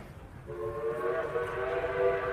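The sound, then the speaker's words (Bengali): A morning train from Waterloo station sounds a whistle, a steady, chord-like blast held for about two seconds over a low rumble. “ভাগ্য সদয় থাকায় Waterloo station থেকে সকালের ট্রেনটা পেয়ে গেলাম।”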